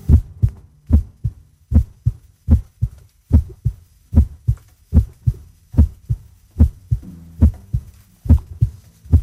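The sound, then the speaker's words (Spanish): Recorded human heartbeats from a sound archive: a steady, even run of many low, thudding double beats in a lub-dub pattern, with nothing else heard. “podemos ir y grabar nuestro propio corazón y lo incorporamos al archivo. Y a mí me parece que hay algo sobrecogedor en pensar que algunos de esos corazones habrán dejado ya de latir y, sin embargo, ahí siguen sonando.”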